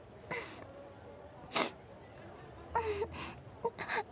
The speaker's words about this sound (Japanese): あれ、あ、ごめんなさい、泣いたりして。